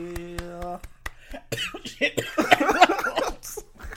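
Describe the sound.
Coughing after choking on spit: a few harsh, rough coughs in quick bursts, with people talking around them.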